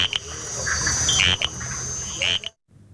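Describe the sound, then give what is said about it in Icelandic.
Small frogs calling at night from coffee bushes give short, loud, whistling chirps over a dense, steady insect-like drone. The chorus cuts off abruptly just before the end, leaving a quieter background. “Froskarnir litlu eru virkastir á nóttunni og þá má heyra söng þeirra óma þar sem þeir sitja í makindum á kaffirunnunum.”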